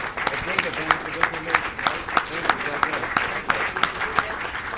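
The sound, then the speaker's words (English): Audience applause at a business talk, given as another round for a guest. The clapping is dense and crackly, and a voice keeps talking over it. “But let's give Bruce another round of applause.”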